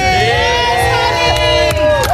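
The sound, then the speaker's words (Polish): Journalists cheering and whooping in a press centre after a song-contest semi-final result: a loud, continuous crowd of overlapping shouting voices with excited calls and scattered clapping throughout. “Alicja Szemplińska pojawiła się w centrum prasowym, gdzie została przywitana przez dziennikarzy gromkimi oklaskami”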